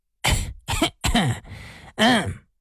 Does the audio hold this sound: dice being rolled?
no